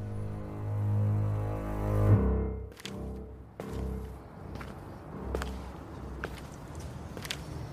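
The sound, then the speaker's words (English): Footsteps walk into Zorgvliet Cemetery in Amsterdam: a few sharp, separate steps sound over a low, steady hum that fades after the first couple of seconds. “Right now, I have just walked into a cemetery.”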